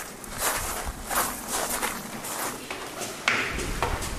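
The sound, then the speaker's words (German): Faint footsteps crunch along an outdoor path toward the Jochenstein hydroelectric dam on the Danube. Soft, irregular steps sit over a low background hiss. “Und wir kommen jetzt vom kleinen Staudamm zum großen Staudamm. Wir gehen jetzt zum Donaukraftwerk Jochenstein.”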